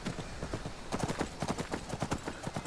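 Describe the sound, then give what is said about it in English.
A horse gallops up a road in a video game, its hooves making a fast, rhythmic clopping that is faint throughout and becomes more distinct after the first second. “I'm just going to gallop up the road a bit.”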